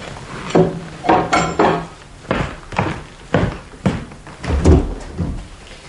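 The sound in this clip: A door being opened, heard as a series of many dull wooden thumps and knocks in an uneven rhythm, fairly loud, with no clear talk.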